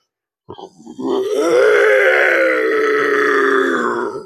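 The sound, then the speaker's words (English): A human voice imitates a T-Rex on the hunt with a long, low, throaty growling roar. It starts with a brief stuttering onset, swells, holds steady for about three seconds, then eases off. “I am going to try to make the sound of a T-Rex on the hunt.”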